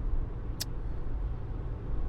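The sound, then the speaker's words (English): A car drives to work on the road with a steady low rumble of engine and road noise, holding an even level throughout, broken once by a brief high chirp partway through. “It is December 2nd, and I'm driving to work.”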